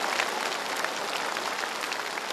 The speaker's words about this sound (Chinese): 我们再次用掌声，恭喜。